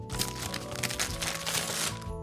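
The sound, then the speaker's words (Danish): A light, rectangular cardboard box, shoebox-like and sealed with tape, is unwrapped with dense crackling and rustling for about two seconds over a steady tonal hum. “Det ligner en skotøjsæske, men den er meget let. Jeg pakker op.”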